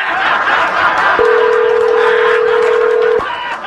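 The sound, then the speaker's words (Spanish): A single steady telephone tone as a call is dialed through to a police department, holding one pitch for about two seconds over a busy, noisy background before cutting off. “Ahí está marcando ya.”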